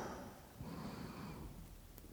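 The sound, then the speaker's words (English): A deep breath drawn in, heard as a soft, steady rush of air lasting about two seconds, faint and alone. “I'm taking in a breath.”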